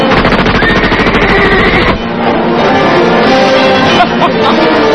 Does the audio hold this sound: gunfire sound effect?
yes